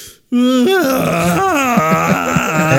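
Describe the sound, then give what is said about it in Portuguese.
A voice imitates the groaning moan of a broadcast antenna: a loud, sustained, wavering tone that starts abruptly and keeps sliding and stepping down in pitch, heard on its own. “antena ficava dando um gemido, assim.”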